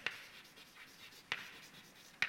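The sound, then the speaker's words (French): Writing mathematical notation on a board gives a faint scratchy sound, broken by three sharp taps where strokes begin, with no talking. “j'ai écrit g, puis je vais écrire g euh, ici aussi”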